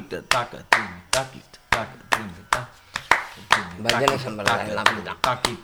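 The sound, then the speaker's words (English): Rhythmic hand claps and hand flips keep the beat for a mridangam player. Sharp, evenly spaced claps land at a steady pulse while a voice vocalizes along throughout. “so they started clapping only the hits. And then like to show which is one for the mridangam player, they started doing the flip.”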